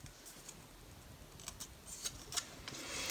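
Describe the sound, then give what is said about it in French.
Scissors cutting small paper figures give a few faint, crisp snips scattered across a quiet background, with no talking. “Vous pouvez tout d'abord découper, comme moi, des petites figures en, papier”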